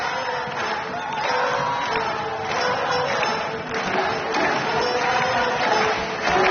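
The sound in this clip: A concert audience at the Marciac jazz festival cheers and applauds. Dense, continuous clapping and shouting holds steady throughout and swells slightly at times.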